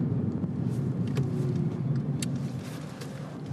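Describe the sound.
A car drives slowly onto a property, giving a steady, low engine rumble that holds at an even level throughout, with no talking.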